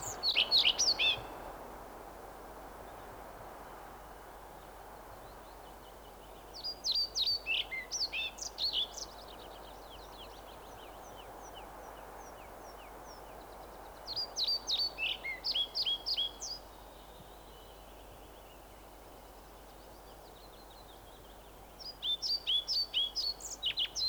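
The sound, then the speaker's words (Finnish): European pied flycatcher song: four separate bursts of short, high, sweet phrases that jump widely in pitch. Each burst repeats much the same pattern, with quiet gaps between them. “Laulu muodostuu lyhyistä säkeistä, joiden sävelkorkeudet vaihtelevat paljon. Samoja säkeitä kirjosieppo toistelee kerta kerran jälkeen.”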